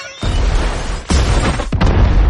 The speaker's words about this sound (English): The gas ignites.